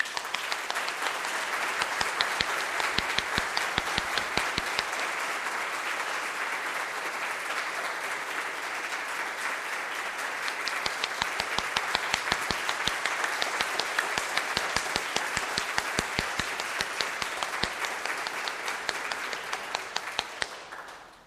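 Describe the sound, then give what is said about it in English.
A church audience applauds to welcome second-year students from a Lutheran school of theology, sustaining thick, even clapping for about twenty seconds before it tapers off at the end. “They are second year students in Hyde Park at the Lutheran School of Theology, and let us welcome them.”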